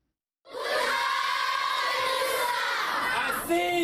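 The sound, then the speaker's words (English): Primary school children at the Minawawa refugee camp in northern Cameroon sing together in welcome, a bright, steady chorus of young voices that starts abruptly after a moment of silence and carries on loudly throughout. “Primary school kids at the Minawawa refugee camp in northern Cameroon sing to welcome Nigerian Interior Minister Abdurrahman Dambazaw”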